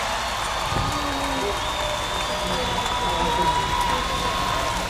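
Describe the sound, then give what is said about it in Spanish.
Audience applause at a live radio event, a steady, dense wash of clapping that lasts the whole five seconds at moderate loudness. “¡Un aplauso!”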